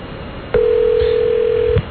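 A single steady telephone tone sounds on a phone line before an answering machine picks up. It holds one even mid pitch for just over a second and then cuts off, with no voices.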